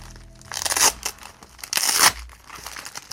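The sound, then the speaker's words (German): Crinkling, tearing packaging as a cardboard dragon toy is unwrapped, in two loud rustling bursts separated by quieter handling. “Und unser Pappdrachen hier, kannst du mal jetzt auspacken?”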